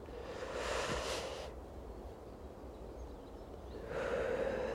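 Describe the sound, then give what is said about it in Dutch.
Slow, deep breathing, soft and airy: one long breath, a quiet pause, then another breath beginning as the sound ends. “En adem maar eens een paar keer diep door, helemaal zo naar je tenen en dan omhoog, helemaal naar je kruintje.”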